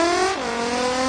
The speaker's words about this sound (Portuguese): o carro velho que ele levantou poeira, hein?